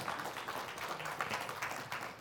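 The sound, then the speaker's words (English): Applause from a church audience: a faint, dense wash of many hands clapping that runs steadily through the whole stretch with no clear break. “Y'all clap your hands for her.”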